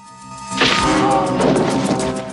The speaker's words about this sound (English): The guard cuts the rope, which drops. Lee punches him.